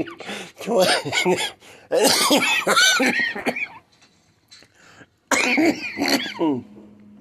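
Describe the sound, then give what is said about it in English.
Hard, repeated coughing from a person, coming in several loud, raspy bouts separated by short pauses, with throaty, voiced tones mixed into the bursts. “they keep me from laughing, so I'm coughing really hard.”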